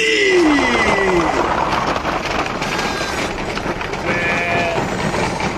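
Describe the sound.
Sheep bleating over a dense, rumbling background noise, with a falling bleat near the start and a higher, shorter bleat toward the end.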